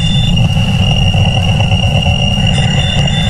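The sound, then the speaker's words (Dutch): A recording of the Wow Signal, a real radio signal, sounds as steady high whistling tones over a loud, rough low rumble that stays constant throughout. “Zomaar even als je de Wow Signal hoort. Dat is een echt geluidsfragment en dat klinkt zo.”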